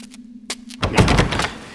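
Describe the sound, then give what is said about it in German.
A door is shut hard and blocked: a low hum gives way to a solid thunk, then about a second of rough, rattling clatter. “Mist, die haben die Tür blockiert.”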